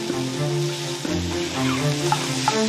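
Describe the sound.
Potato stew with fresh erjingtiao chilies cooking in a pot gives a steady sizzling hiss with scattered soft pops and bubbling, with no talk.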